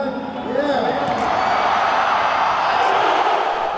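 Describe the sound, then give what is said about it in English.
A packed arena crowd in Manila's Mall of Asia Arena roars loudly and steadily after a basketball dunk, with whoops and shouting voices rising out of the sustained cheering. “That's the sound of LeBron dunking in the packed Mall of Asia Arena.”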